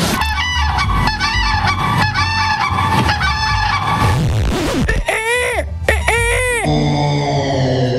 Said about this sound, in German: Das war der Kranich. Mit Abstand der größte Vogel hier in der Auswahl.